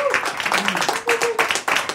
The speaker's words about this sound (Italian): Grazie al Mamo, al coro Mamo Ensemble, veramente un applauso.